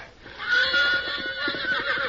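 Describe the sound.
A mean, unbroken horse lets out a loud whinny lasting about two seconds, with a shrill, quavering pitch that wobbles throughout. It is heard alone, with no talk over it.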